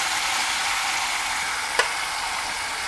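Garlic sizzles in olive oil, a steady bright crackling hiss that holds even throughout, with one brief sharp click near the end.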